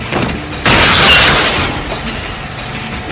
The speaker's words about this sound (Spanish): El hombre con rifle se acuesta y dispara hacia el techo.